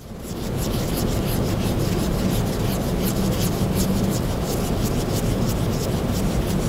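A cotton swab being rubbed against a surface makes a continuous, fast, scratchy rubbing hiss that stays even and fairly loud throughout, heard alone.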